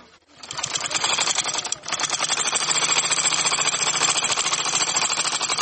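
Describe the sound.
A tailor's sewing machine runs in a busy tailoring workshop where shorts and trousers are altered and pockets stitched on. The fast mechanical rattle starts abruptly, pauses briefly, then runs on steadily and evenly.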